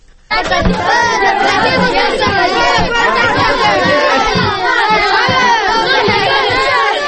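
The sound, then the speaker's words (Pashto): Children playing and shouting in a play area in Helmand province, southern Afghanistan: a dense, loud crowd of young voices chattering and yelling continuously after a brief quiet opening, with overlapping cries throughout. “دا د افغانستان په جنوبی ولایت هلمند کې د ماشومان د لوبو یو سیمه ده. په دې ځای کې هر ورځ په لسګونو ماشومان لوبې سره کوي”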